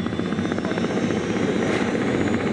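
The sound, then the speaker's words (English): A Black Hawk helicopter flies in a video game, its rotor beating in a loud, steady, rapid throb with a continuous engine whine and no voices. “That's the sound of a game Novalogic created around the downed Black Hawk helicopter incident in Somalia.”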